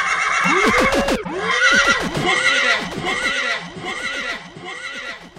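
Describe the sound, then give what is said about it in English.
A horse neighing sound effect, with loud whinnies that rise and fall in repeated arching calls over steady, rhythmic clip-clopping hooves throughout. “That's my sound horse, you know. That's how warped my mind is, you know. Sound horse, you know.”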